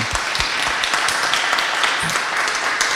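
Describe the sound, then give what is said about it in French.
Applause from participants at a community gathering in the Poitiers area, honouring a facilitator: a steady, moderate patter of many hands clapping, with a few soft low thumps mixed in. “Merci à Sylvain je pense qu'on peut l'applaudir d'ailleurs Sylvain”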